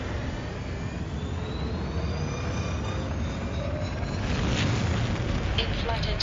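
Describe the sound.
A spaceship blasts off in a video game with a steady, dense rumbling roar that swells slightly toward the end.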